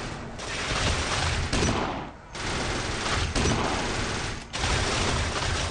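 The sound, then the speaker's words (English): Dense, rapid gunfire in a video game escort mission, with enemies firing on a limousine. The barrage is loud and continuous, easing off briefly twice before resuming. “They're shooting at the limo! They're gonna blow it to bits!”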